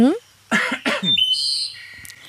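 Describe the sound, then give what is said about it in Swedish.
Someone clears their throat in two short, rough bursts right after a brief bit of voice, followed by thin, high whistling tones. “får jag harkla mig?”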